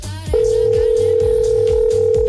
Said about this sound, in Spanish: yo sí contesto, pero no contestan. Estamos llamando por acá Edwin Alejandro.